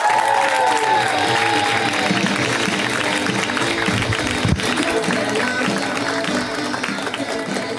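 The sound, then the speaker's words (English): An audience applauds and cheers for a comedian being introduced onstage, a dense, sustained wash of clapping with scattered whoops that holds steady throughout. “Please make it very, very loud and put your hands together for Sarah Schaefer.”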